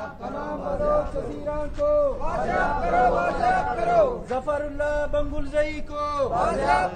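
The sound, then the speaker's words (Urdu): Relatives of missing persons protest outside the Quetta press club on Eid, chanting slogans and calling out names. Their voices rise in rhythmic, repeated sung phrases that recur at a regular pace. “Press club کے باہر جمع ہونے والے یہ لوگ اپنے پیاروں کے نام پکارتے رہے اور نعرے بازی کرتے رہے۔”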